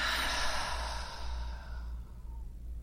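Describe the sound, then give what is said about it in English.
A slow, deep breath: one long, soft, breathy exhale that gradually fades away. “let's take our nice deep breath in through our nose and out through your mouth.”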